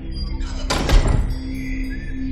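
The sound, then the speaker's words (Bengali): A door is slammed shut with a single heavy thud and a brief rattling crash. It rises sharply over a steady background hum and then fades. “রিচার্ডের কাছ থেকে চাবির গোছাটা নিয়ে সশব্দে দরজা বন্ধ করে দেয় Mac.”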